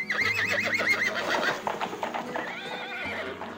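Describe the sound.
A horse whinnies with a loud, wavering call, then hooves clip-clop in a quick, steady rhythm as a king rides away from the city.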